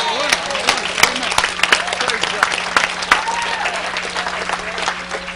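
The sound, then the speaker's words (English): A church audience claps during a sermon, with loud, dense applause running throughout and voices calling out over it. “Give God a big clap offering right there.”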